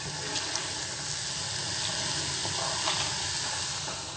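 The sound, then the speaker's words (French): Frozen noodles drop into a pot of boiling water, giving a steady bubbling hiss that stays even and fairly soft, with no talking. “Les nouilles gelées dans l'eau bouillante.”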